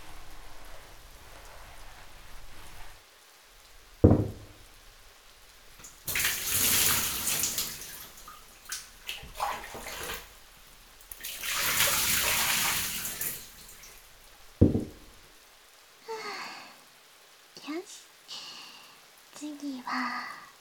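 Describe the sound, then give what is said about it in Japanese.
Water pours in hissing, splashing bursts to rinse a person being washed during bathing care, with two longer pours and quieter dribbles, knocks and handling sounds in between. “一回流しますね。”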